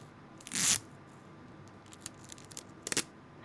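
Adhesive tape pulled and torn while taping down an injured person, with two short rasping bursts, the first longer and louder, and faint clicks between them.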